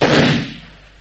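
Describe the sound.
A pistol shot is fired at a bullet mark on a wall: one loud, sudden bang that cracks out and then decays in a roaring tail over about half a second.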